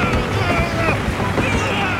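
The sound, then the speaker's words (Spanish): A ship breaking apart at sea, staged as a radio drama sound effect: a loud, continuous roar of rushing water and wind-like noise that keeps up steadily with no break. “El barco se está destrozando. ¡Vais a hundiros! ¡Saltad, Lee! ¡Saltad del barco! ¡No tardarán partirse en dos!”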